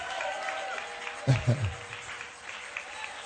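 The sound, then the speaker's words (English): A church audience claps in a brief burst over a steady background hum, the clapping fading quickly after a second or so. “Are you clapping for my”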